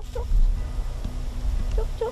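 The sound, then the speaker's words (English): Chickens cluck on a farm: a few short, faint clucks rise over a low rumbling background, with no voices. “Olive Ether is checking her chickens.”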